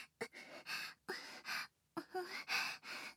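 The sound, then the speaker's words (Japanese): Heavy breathing: a quick series of loud, ragged breaths and gasps in short bursts separated by brief pauses, with no talking. “どんどん息遣いが荒くなってますね。”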